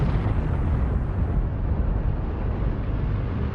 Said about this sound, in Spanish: A las 8.16, Little Boy explotó sobre Hiroshima.